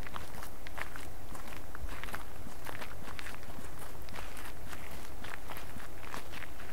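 Footsteps walking toward a catacomb entrance beside a small chapel: many close, crisp steps in a steady, continuous rhythm, loud and alone, with no voices.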